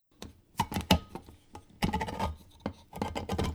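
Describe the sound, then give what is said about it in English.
A can is opened in a kitchen during cooking, heard as a run of irregular sharp clicks, knocks and short scraping rubs at moderate loudness with no voices. “In a can is perfect. Okay, here it is. I will open it up for you.”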